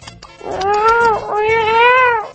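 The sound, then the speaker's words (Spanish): A cat yowling: two long, loud, tonal yowls in a row, each rising and then falling in pitch, the second drawn out a little longer. “mira cómo me aúlla ese gato.”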